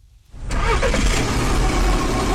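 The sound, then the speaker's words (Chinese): A car engine on a drive from a city centre to a county over a hundred kilometres away comes in after a moment of quiet, then holds a steady, loud, low running rumble with no talk. “成都市农林科学院工程师刘季开车从成都市区赶往百余公里外的蒲江县”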